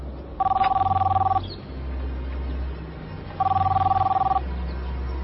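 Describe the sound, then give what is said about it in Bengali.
A telephone rings with an incoming call: two trilling ring bursts, each about a second long and separated by a pause of a couple of seconds, sounding over a steady low background drone. “আমার একটা phone এসছে”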